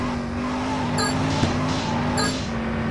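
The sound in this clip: Car driving in the video game Grand Theft Auto: Chinatown Wars: a steady, low engine drone hums throughout with little change, at a modest level and without speech.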